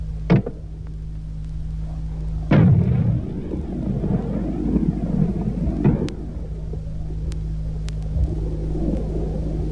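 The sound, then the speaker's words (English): An M40A1 106mm recoilless rifle fires: a sharp blast at the start, then a heavier, louder boom that rolls into a long, low rumble lasting several seconds. “The M40A1 106mm recoilless rifle.”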